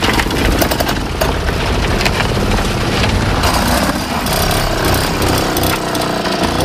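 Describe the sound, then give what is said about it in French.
A Solex motorised bicycle's small engine running steadily, giving a dense, buzzing rattle at a constant, fairly loud level with no pauses. “Ça roule pas vite, mais c'est pas bruyant. Non, voilà. Alors la particularité, c'est que le Solex n'est pas tellement bruyant.”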